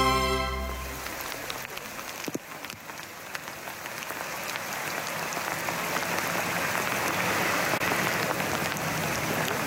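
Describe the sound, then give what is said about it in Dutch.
Hail falls on the water of the Brouwerskolk pond in Overveen as a dense, continuous hiss of countless tiny impacts. The crackling patter is steady, grows slightly louder toward the end and has no distinct pauses. “Het geluid van hagel op het water van de Brouwerskolk in Overveen. Anneke Koper vond het een fascinerend geluid.”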